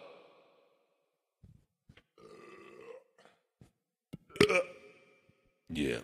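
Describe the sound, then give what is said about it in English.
A loud, guttural burp bursts out after scattered faint noises, then a second long, rasping belch follows near the end. “Blech. You didn't hear the beginning of that burp because I didn't let you.”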